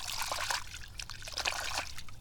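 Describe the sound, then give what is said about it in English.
Water trickles and sloshes steadily as a muddy red Wilson number one golf ball is dropped into water and washed off. A continuous, fairly even dribbling splash runs throughout with no talk. “I'm gonna drop it in the water here. And then step over it. Let's wash it off.”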